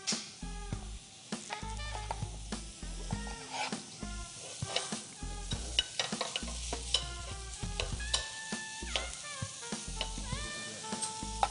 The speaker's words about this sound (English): I'm not a big oatmeal fan, so I added just a little bit of butter, just a little teeny bit.